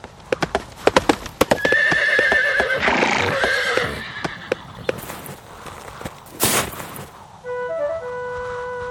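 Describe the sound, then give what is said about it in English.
Eight or nine black stallions ride up with hooves clip-clopping in an irregular beat. A loud whinny rises partway through among the hoofbeats. “About 8 or 9 black stallions riding up.”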